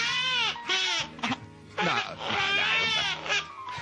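A person cries in high, wavering wails and sobs, broken into a few bursts with short gasping pauses between them, loud and strained throughout.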